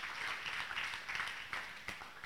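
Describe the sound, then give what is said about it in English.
A church audience claps their hands together in worship, a soft, steady patter of many hands with slight pulsing bursts. “In the name of the Lord Jesus, clap your hands to the word of the Lord. Clap your hands.”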